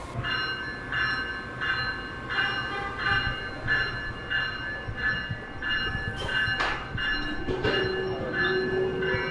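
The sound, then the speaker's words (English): An electric locomotive on a passenger train from Philadelphia to Washington departs after being disconnected. Steady, rhythmic clanks repeat throughout, and a sustained tonal whine comes in near the end. “The final disconnection is taking place, and the electric locomotive is about to depart.”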